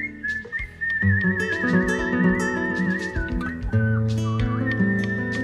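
A man whistles a chacarera tune on a train, a high, wavering melody with trills and quick ornaments, over a steady low background.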